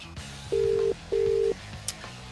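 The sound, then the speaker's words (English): Ringback tone of an outgoing phone call to a mobile number: two steady mid-pitched tone bursts with a short gap between them, then a brief click. “So we're just going to call her and see if we can.”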